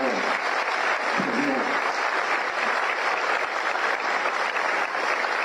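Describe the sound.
Audience applause for a president, dense and continuous clapping at a steady loud level throughout, with voices faintly mixed in beneath the crowd.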